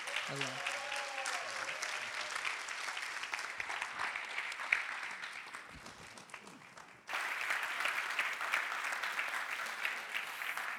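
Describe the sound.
An audience applauds to welcome a speaker with sustained, even clapping. A voice is briefly heard at the start, and the applause dips before surging back to full strength.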